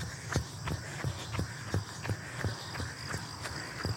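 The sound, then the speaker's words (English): Footsteps of someone running downhill land as a steady, quick rhythm of soft thuds, roughly three per second, over constant low background noise. “I am going downhill, so don't listen to my footsteps.”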